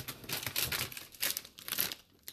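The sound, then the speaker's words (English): Crinkling and rustling of thick cardstock paper bought at a retail store, heavier than regular paper. Several faint brushing, crackling bursts come in irregular succession as the sheets are handled. “I got some thicker paper, some, actually, I'm going to look at it real quick.”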